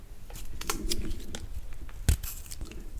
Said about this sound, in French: on va prendre du gingembre et plus ou moins 100 g de gingembre qu'on va aussi éplucher et couper en gros morceaux.